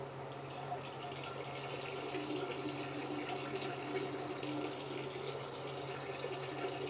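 A steady, unbroken stream of urine pours into a toilet bowl, making a continuous watery splashing and trickling that holds an even loudness throughout, with no talking.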